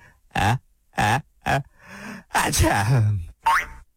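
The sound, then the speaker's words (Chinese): A voice imitates a pig with a cold giving a big sneeze: three short, loud voiced gasps, then a long, noisy, explosive burst, and finally one short rising cry. “这不又是一个大喷嚏，而且这个大喷嚏把他自己的大口罩都打掉了。”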